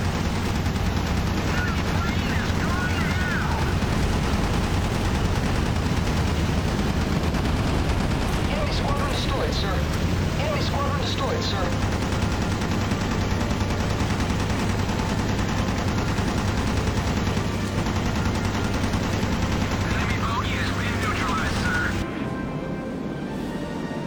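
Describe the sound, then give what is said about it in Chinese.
Rapid aircraft machine-gun fire from the Battle of Midway video game. Continuous dense rattling bursts run over a steady low drone for the whole stretch, staying loud throughout. “这个本任务前期的这个制空作战啊，这个比较无聊，它就是干，就是干，它没有其他的一个选择，而且机枪也不过热，打吧。”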